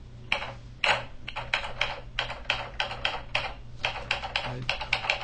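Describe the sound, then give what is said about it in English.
Rapid typing on a computer keyboard: many crisp, clicky keystrokes in quick, uneven bursts with brief pauses, heard alone with no voices. “You don't have to keep typing anymore.”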